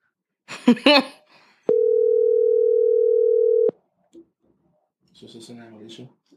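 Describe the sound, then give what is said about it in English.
A telephone dial tone plays as an outgoing call to a sister is placed, a steady single-pitched hum lasting about two seconds, with brief talk before and after it. “Let's call my sister here. Pull up the phone.”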